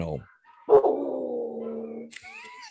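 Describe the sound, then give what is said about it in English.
A dog gives one long, drawn-out bark or cry that holds a steady pitch for over a second, with shorter, higher sounds just before and after it. “I love that dog.”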